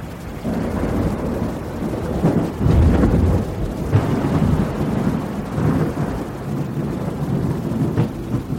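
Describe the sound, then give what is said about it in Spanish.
Thunderstorm with deep rumbling thunder and steady rain, a continuous loud low roar that swells several times as the thunder rolls, with no voices. “pude apreciar grandes tormentas rojizas en ese extraño firmamento oscuro.”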